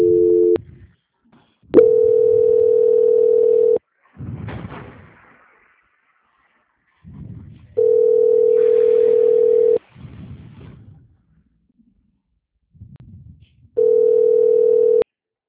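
Telephone line tone while a call is being transferred: a steady mid-pitched tone sounds in blocks of about two seconds, repeating at regular intervals, with brief muffled low sounds in the quiet gaps between.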